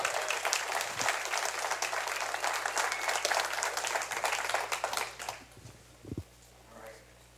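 An audience at a Sunday church service applauds to welcome a preacher, with dense, steady clapping for about five seconds that then quickly dies away into near silence, broken by a few soft thumps.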